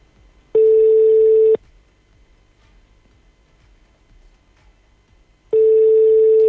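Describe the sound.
Telephone call tone while a call is being placed: two identical steady, even-pitched beeps about one second long, separated by a pause of roughly four seconds, with no talk.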